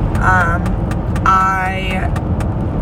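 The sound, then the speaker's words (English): A car's low, droning engine noise runs steadily beneath a person talking, without clear changes in level. “that's my car making that sound.”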